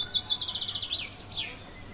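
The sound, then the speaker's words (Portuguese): Birdsong: a quick run of high, thin chirps and trills, fairly faint, over a low, steady background hum with no voices. “A cantoria dos passarinhos,”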